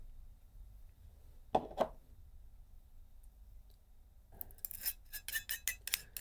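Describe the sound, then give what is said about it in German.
Small clicks and clinks come from filling the capsule of a Mighty vaporizer with cannabis. Two sharp clicks come first, then after a quiet pause a burst of rapid, light rattling clicks, all faint against near silence. “So, dann befüllen wir die Kapsel vom Mighty.”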